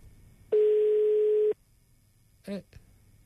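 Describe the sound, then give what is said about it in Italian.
One steady, level phone tone sounds for about a second as an outgoing call is placed. A short, faint voice sound follows after a pause. “proviamo a chiamare lui, Tommaso Mazzanti.”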